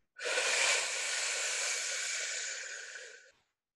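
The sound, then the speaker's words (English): A person breathes deeply through the mouth in a long, airy, hissing breath that holds steady for about three seconds before tapering off, heard alone. “And one more inhale through our mouth.”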